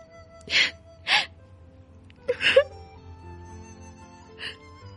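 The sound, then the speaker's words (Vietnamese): A young woman sobs with her face in her hands, letting out a few breathy, gasping sobs in uneven bursts separated by quiet pauses. “Như Bình lại cúi xuống ôm mặt khóc tức tưởi.”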